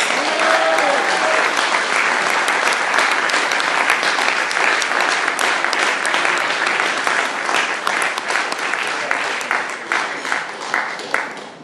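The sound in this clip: Audience applause welcoming a guest speaker: loud, dense clapping that holds steady for several seconds and then thins out toward the end.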